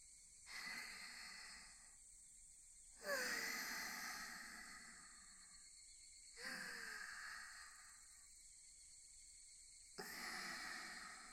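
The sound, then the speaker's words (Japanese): Slow, deep breaths taken to calm down: four long, soft, breathy rushes of air with short pauses between them, quiet and without speech. “落ち着こう。こんなんじゃお兄さんがのんびりできない。深呼吸。”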